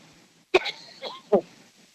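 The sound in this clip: Throat clearing from a scratchy throat: two harsh, abrupt rasping bursts with a short voiced grunt between them, heard alone in a quiet setting.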